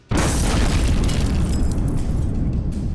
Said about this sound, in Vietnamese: Một tiếng nổ kinh thiên động địa vang lên, xé toạc màn đêm yên tĩnh.